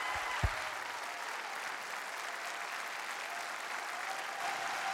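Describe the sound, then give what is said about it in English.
Warm audience applause welcomes a speaker home across several campuses, a soft, steady, even wash of clapping with one brief thump near the start. “would you please, across all of our campuses, put your hands together, give a warm homecoming welcome”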